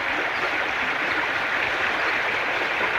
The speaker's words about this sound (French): Vous aimez le bruit de l'eau?